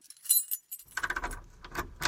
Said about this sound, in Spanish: Sí, más fácil que abrir la puerta. Tienes razón. Con todas las llaves que tengo.